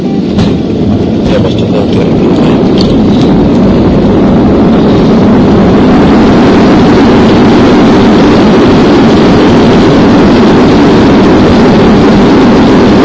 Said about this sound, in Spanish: Precisos instantes del aterrizaje del avión de Copa Airlines en el aeropuerto de Panamá.